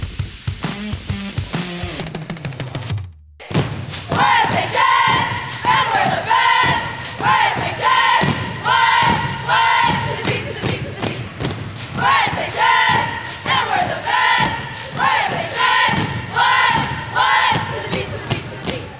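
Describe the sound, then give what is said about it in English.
Sprayberry High School cheerleaders celebrate at a school pep rally: a few thuds, a short break, then loud, sustained crowd cheering and rhythmic chanted yells. “You just heard the Sprayberry High School cheerleaders celebrating and kicking off a pep rally held at the school on Thursday, September 7th.”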